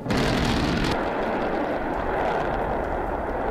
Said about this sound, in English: Okay, I added Urkel in there for effect, but the rocket essentially exploded on the platform, an enormous fireball like something out of the movies.